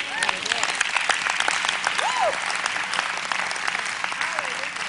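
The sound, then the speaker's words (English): Audience applause at a religious seminar: dense, sustained clapping from a crowd with scattered voices and whoops mixed in, fairly loud and even throughout. “If you agree with that, clap.”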